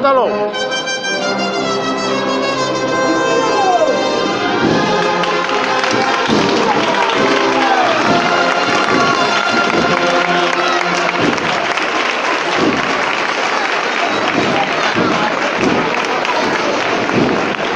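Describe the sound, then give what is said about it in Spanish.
A crowd applauds in the street as the Jesús de la Pasión float passes during a Lunes Santo Holy Week procession in Jaén. The clapping is loud and dense throughout, with voices mixed in. “y vuelvo a levantar los aplausos de la multitud que se agolpa aquí en esta calle maestra.”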